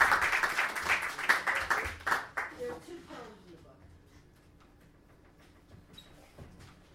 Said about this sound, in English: She's got a poem. You can clap. She's going to come and read her poem.